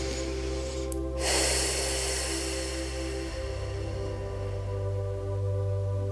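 A big, deep exhale of breath taken during a guided relaxation exercise. One breathy rush rises over a steady, droning musical background.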